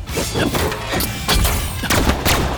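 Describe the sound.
Anti-tank cannon fire in a video game fight: booming blasts and heavy thuds that come repeatedly over a dense, loud, continuous rumble.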